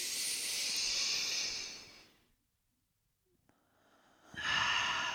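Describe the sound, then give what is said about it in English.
A deep inhale: a long, airy breath that fades into near silence, after which breath noise swells back in toward the end. “All right, everybody, let's inhale.”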